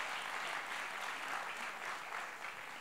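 A church audience applauds the grandfathers among them with soft, continuous clapping. It is an even, sustained patter of many hands that eases slightly toward the end.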